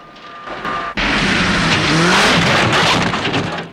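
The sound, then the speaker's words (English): Chasing cars and a rickety buggy race across rough, rocky terrain: engines roar in a sudden loud surge just before one second, with rough rumbling and tire skids holding loud throughout. “Despite its rickety appearance, the buggy zips across the rocky surface while the chasing cars crash around on the rough terrain, kicking up thick dust clouds.”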